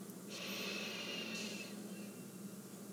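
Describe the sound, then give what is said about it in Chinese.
One soft, brief breath drawn in through the nose, a faint airy sniff that fades against quiet background hiss. “把你的全身都放轻松。鼻子吸气，”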